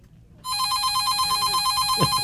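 A telephone rings for an incoming call. After a brief quiet start, a loud, steady, warbling electronic ring sounds continuously to the end.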